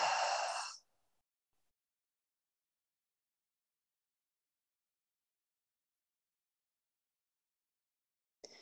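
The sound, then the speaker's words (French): A single short, breathy exhale like a sigh during a guided breathing exercise, a brief airy rush at the start, followed by a long stretch of near silence. “On inspire. Et on expire.”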